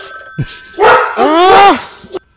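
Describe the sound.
A person imitates a dog barking: a short yelp, then a louder voiced bark and a drawn-out, wavering howl-like woof, all voiced by a human.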